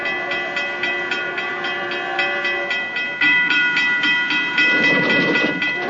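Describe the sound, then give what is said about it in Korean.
A commuter train pulling into a station platform, with a steady, loud rumble, rhythmic clicking of wheels over rail joints and a ringing metallic whine. The clatter grows heavier partway through. “열차가 들어서는 플랫폼.”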